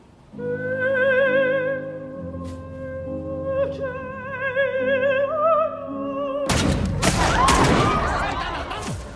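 Gunfire in a film scene where terrorists interrupt an opera recital: sustained singing with vibrato over accompaniment is abruptly cut off by a sudden loud burst of gunfire and chaotic noise that continues to the end.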